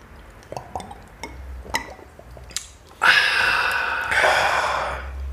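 Beer glasses clink a few times with sharp, bright chinks. Then comes a long, loud, breathy gasp of satisfaction after drinking, which swells once more midway before fading.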